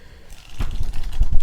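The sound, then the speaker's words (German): Pages of a book are leafed through: after a quiet start, a few dry, papery rustles and soft flicks follow in quick, uneven succession, with no voices. “Gut, also blättern wir mal.”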